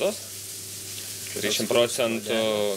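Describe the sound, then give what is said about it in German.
Fresh, same-day-caught cod fries skin-side down in a pan, giving a soft, steady sizzle throughout. A voice talks over it in the second half. “Ich brate den immer länger auf der Haut, danach noch mal rund 6 Minuten auf der anderen Seite.”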